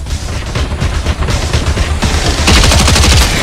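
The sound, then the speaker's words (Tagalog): Loud, rapid bursts of automatic gunfire in a video game crackle densely throughout, growing heavier and more intense near the end. “Nagpututukan din pa.”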